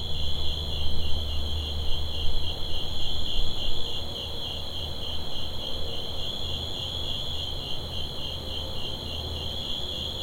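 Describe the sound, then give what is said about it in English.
Crickets and other insects chirp outside a house at night in a steady, dense, high-pitched trill with a consistent pulsing rhythm, continuous throughout with no voices. “I swear that one of these bugs was playing a Latin jazz shaker part. Like, I mean, it was consistent. It had all the accents in it that it needed to have.”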